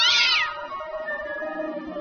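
A cat meows once with a loud, high-pitched cry that falls in pitch, trailing into quieter steady tones.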